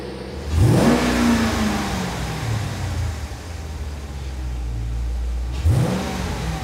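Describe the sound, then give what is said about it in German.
Car engine revving hard, twice: a loud roar whose pitch climbs sharply then sinks slowly as the engine idles down, then a second sharp rev near the end, with no talk. “Ey, gib Gummi, lass klingen. Gib mal Gas.”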